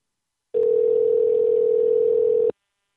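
A telephone dialing tone plays as one steady, even hum for about two seconds. It starts and stops abruptly, with silence on either side.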